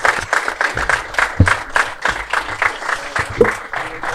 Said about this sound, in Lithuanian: Ponios ir ponai, audringai pasitikite Pablo Laso, Virginijus. Seskus.